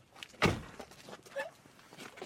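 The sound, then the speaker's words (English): A door being opened, with one solid low thunk near the start followed by a few fainter knocks and rustling sounds. “Nice and easy. Open the door. I'm opening the door.”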